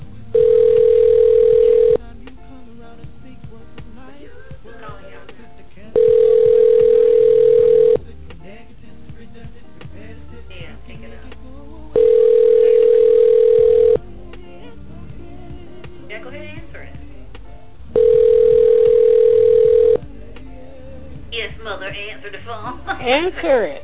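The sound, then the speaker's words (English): Telephone tones sound while a call is being dialed: four steady, mid-pitched beeps, each lasting about two seconds, separated by pauses of roughly four seconds. Fainter background sound fills the gaps between them. “I'm dialing mom in.”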